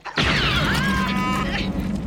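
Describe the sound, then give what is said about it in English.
A blaster shot strikes the ground and sets off a quake: a sudden loud burst grows into a sustained rumbling roar, with whining tonal sweeps running through it for about two seconds. No voices are heard. “It started when my first shot hit the ground. Try it again.”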